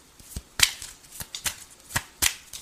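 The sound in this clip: Tarot cards being shuffled and drawn: a quick series of crisp, irregular papery taps and flicks, fairly faint and without talk.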